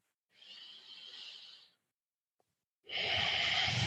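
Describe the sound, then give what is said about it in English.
Deep, lung-expanding breathing during a guided breathing exercise: a slow, soft inhale lasting over a second, a short silence, then a louder, airy exhale. No one speaks. “lung expanding breaths that just get all those parts of your lungs, all those edges,”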